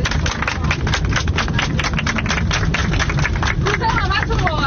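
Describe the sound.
An audience claps on request at a Persian-language gathering. Dense, rapid, loud hand claps run throughout, and voices emerge toward the end.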